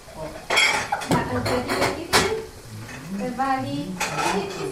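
Pots, pans and cutlery clatter at a home kitchen stove, with many irregular metallic clinks and knocks in quick, uneven succession at a fairly steady loudness.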